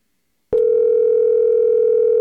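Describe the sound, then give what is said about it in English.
A steady telephone dial tone, heard after dialing a number, starts abruptly after half a second of silence and holds one loud, unbroken pitch to the end. “Did you dial it right? Telephone number 248.”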